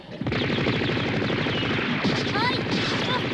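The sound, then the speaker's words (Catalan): Rapid automatic gunfire rattles in a dense, continuous stream as bullets pierce barrels that spill, loud and unbroken from start to finish. “En Goku salta esquivant bales. En Krilin s'amaga darrere una paret i en Goku entre grans caixes de fusta. No et quedis aquí! Les bales foraren bidons que vessen.”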